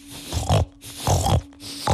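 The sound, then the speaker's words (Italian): Pigs grunting and snorting in three rough, throaty bursts with short pauses between them, loud and alone with no talk. “Insomma, Circe li aveva trasformati in tanti... Maiali!”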